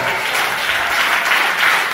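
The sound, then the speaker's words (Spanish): Steady, dense applause from a church audience during a sermon, a thick continuous wash of many hands clapping at an even level throughout, with no voices standing out. “Pero por ese aplauso,”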